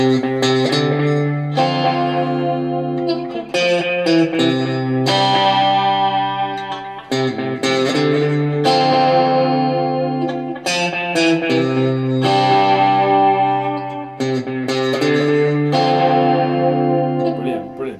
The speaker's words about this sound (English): we're using the delay to sort of slap back that chord. It's an intrinsic part of the riff itself.